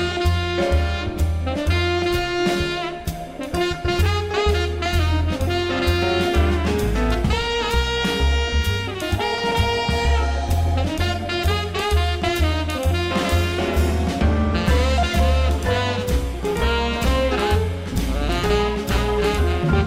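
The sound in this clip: Instrumental music from a record made as a tribute to Italy, with a steady rhythmic pulse, deep bass and bright melodic lines, loud and continuous with no singing.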